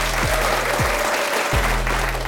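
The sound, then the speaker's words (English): Audience applause for a contestant on a quiz, a dense, even wash of clapping that holds at a steady level from start to finish with no voices, plus a few deep tones sliding downward beneath it. “A round of applause for Richard”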